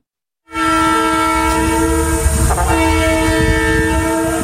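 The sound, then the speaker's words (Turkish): Freight train horn at a level crossing in Elazığ, a loud sustained multi-tone blast that starts abruptly and holds steady to the end, with rail rumble underneath. “Hemzemin geçitten geçmeye çalışan araç yük treninin önüne 120 metre boyunca sürüklendi.”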